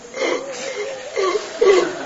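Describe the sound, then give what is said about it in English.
A voice imitates a fish gasping on land with wheezy, strained breathy gasps that swell and fade a few times, growing louder toward the end. “Because he's a fish on land. You see, he's gasping at every...”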